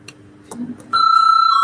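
A bell rings in a parliamentary chamber to call members to a vote. After a brief stretch of faint background noise, a loud, steady electric ring begins suddenly with a slight buzzing flutter and continues to the end.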